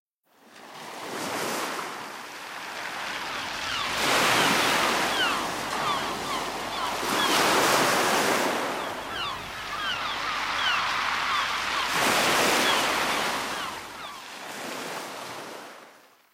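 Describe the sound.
Sea waves roll in at the seaside. A loud, hissing surf swells and ebbs several times in long, broad surges, with no voices.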